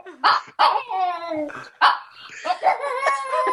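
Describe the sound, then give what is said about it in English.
A one-year-old Shih Tzu howls in a few short, wavering yowls with bright harmonic tones that slide and drop in pitch, loud and close, with brief gaps between them. “Someone's got something to say. That's our dog. We've been having fun with animals for the last couple of weeks. Oh, man. We have a little... our Shih Tzu, Charlie, is 1 year old, and he woke up from sleeping to howling.”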